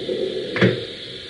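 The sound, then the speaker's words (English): A door is pushed shut with a single short, solid thud in the middle, over a steady low background hum. “Wait now. Let me close the door.”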